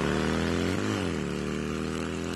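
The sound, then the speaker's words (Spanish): A new motorcycle engine runs with a steady, buzzing hum that stays loud throughout and holds one brief rev early on. “vení y arrancá en una 0 kilómetro de Casa Orlando Araujo. Y no te olvides, con la compra de tu moto, el casco va de regalo.”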